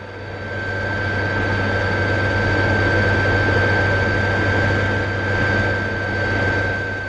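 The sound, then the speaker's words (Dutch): An airplane flying low overhead gives a loud, continuous engine roar with a steady high whine riding on a broad droning rumble, swelling slightly and holding without a break; no one speaks. “Je vliegt er één keer laag overheen.”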